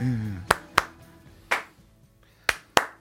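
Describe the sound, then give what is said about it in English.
Handclaps from a song's clap track, sharp and bright over the music: five claps, falling as a quick double, a single, then another quick double. “Once again, the claps are back.”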